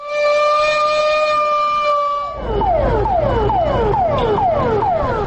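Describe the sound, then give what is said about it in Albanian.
A civil defense alarm siren sounding to mark the start of a public fire emergency simulation exercise in a northern town: a loud, steady multi-tone wail that abruptly switches to rapid, repeating falling sweeps that continue to the end. “Sinjali alarmit në veri të Mitrovicës ka shënuar sot fillimin e ushtrimit simulues publik të reagimit në rast të emergjencës së zjarrit nga ana e organizatës së ashtu quajtur Civil na Zaštita Mitrovic”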